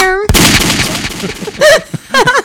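A single gunshot sound effect hits hard and loud, then decays into a rumbling tail. A couple of short voiced sounds follow.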